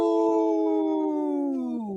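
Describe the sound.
A wolf howls in one long, sustained, tonal note that holds nearly level, then drops lower in pitch near the end. It is loud and heard alone.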